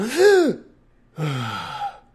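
A person gasps for air twice, in two voiced breaths separated by a short silent pause. The first is brief and the second more drawn out, with nothing else heard.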